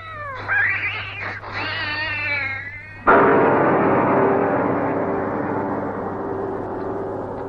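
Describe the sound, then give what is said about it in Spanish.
A cat fights a cobra, giving a loud, wavering caterwauling yowl. It gives way abruptly to a harsh, noisy rush that slowly fades over several seconds, with no voices. “Bravo, gato. Muy bien. Le has hecho morder el polvo a la cobra.”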